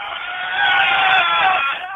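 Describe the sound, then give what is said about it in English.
Crew of the Cats boat cheering together at a rowing event on the final day of racing at the Riverside: a bright group shout swells after about half a second and holds steadily before easing off at the end. “And cheer from the Cats boat, please.”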